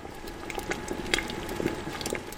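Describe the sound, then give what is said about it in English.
Cranberry sauce made from last year's harvest bubbles in a large clay pot, the syrupy red liquid giving off soft, irregular pops and gurgles at a fairly low level. “A syrupy red liquid bubbles away inside a large clay pot.”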